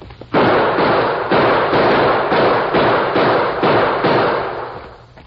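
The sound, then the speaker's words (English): Gunfire in a shootout with fleeing crooks across rocky, broken ground: a dense, loud barrage of overlapping shots and booms running continuously with regular surges, easing off toward the end. “Use your guns.”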